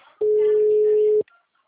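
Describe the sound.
A telephone busy signal sounds as a single steady mid-pitched tone lasting about one second. It cuts off cleanly, with only faint brief sounds just before and after it.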